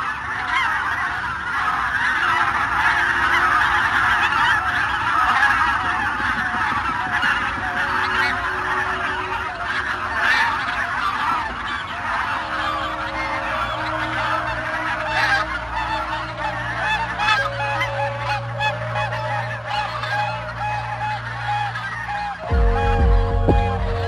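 Dense, continuous honking of a large flock of several hundred geese on wet meadows, many overlapping calls forming a loud, unbroken chorus throughout.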